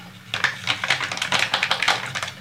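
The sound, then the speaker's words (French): A fork whisks egg yolks with grated parmesan in a bowl, producing a rapid, uneven stream of light metallic clicks and taps that keeps a brisk rhythm throughout. “Et tu fouettes à la fourchette. Voilà, je fouette à la fourchette, au fouet, faites comme vous voulez.”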